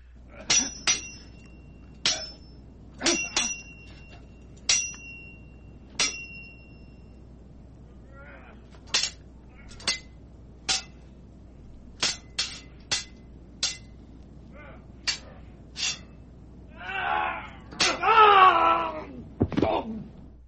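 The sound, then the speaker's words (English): Metallic sword ratcheting sound effect: many sharp clinks and clicks, some carrying a bright ringing tone, spaced irregularly, followed near the end by a brief wailing, moaning sound. “All right, sword ratcheting this time,”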